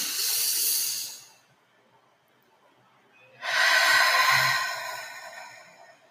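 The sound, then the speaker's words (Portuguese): Deep breathing during a guided meditation: two long, airy breaths separated by a quiet pause. The second is louder and slowly tapers off. “Respira muito profundamente agora. Respira um.”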